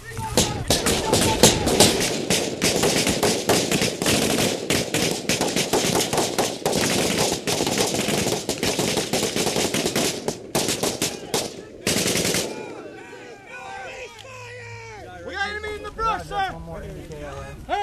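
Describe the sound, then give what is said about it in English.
Rapid automatic gunfire in combat, many bursts of sharp, loud cracks packed closely together for about twelve seconds, with voices among the shots, before the firing stops and only scattered sounds and talk remain. “I shot him in the face a couple times.”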